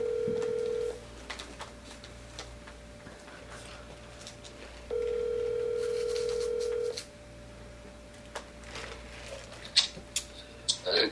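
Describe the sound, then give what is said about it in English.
Telephone ringback heard while placing a call: a steady buzzing tone cut off at the start, then one tone of about two seconds after a pause, followed by faint clicks and rustling. “Let's call daddy and see what men think.”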